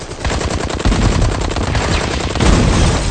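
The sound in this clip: Dense automatic gunfire rattles through a war-film battle scene. Rapid shots run together into loud, continuous bursts with no break and no voices.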